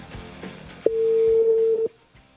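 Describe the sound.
A telephone ringback tone sounds on the line while a call to a guest is placed: one steady, mid-pitched, unbroken burst lasting about a second, clear and alone over faint background noise.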